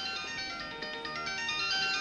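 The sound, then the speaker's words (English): A pink diamante mobile phone rings with a bright, melodic electronic ringtone. Layered tonal notes play continuously at an even level, with no voices. “Wait, hold on, my cell phone's ringing.”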